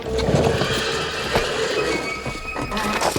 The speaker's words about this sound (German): Höllentempo galoppierten die schwarzen Hengste über unzählige Brücken hinweg, den hügeligen Gebirgspass entlang, bis sie nach einer halsbrecherischen Fahrt endlich stoppten.